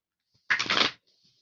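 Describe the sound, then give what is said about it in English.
Cards shuffled and one drawn from an oracle card deck: a single short, crisp papery riffle in otherwise near-silence. “Can I please have a card for Aries angels?”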